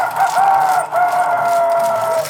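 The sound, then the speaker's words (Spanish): A rooster crows during a lottery-style number-calling game as the rooster card is announced. The call comes as two long, loud, tonal phrases separated by a brief break, with no talk over it. “Ahí está el gallo, vamos que gallo será.”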